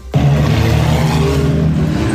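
A sports car engine from an 800-horsepower charity ride car rumbles steadily, a loud, deep harmonic drone that holds fairly even for about two seconds without a clear rev rise.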